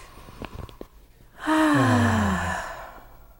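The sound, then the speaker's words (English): A deep sigh during a guided group breathing exercise: one long breathy exhale with a voiced tone that slides downward in pitch and fades out, preceded by a few faint clicks. “so everybody, let's do it. Inhale.”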